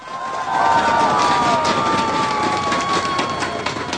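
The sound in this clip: Crowd cheering and screaming to welcome guests at a public event in Kaohsiung, a loud sustained roar that starts after a brief quieter moment, with a shrill whistle-like tone threaded through the noise.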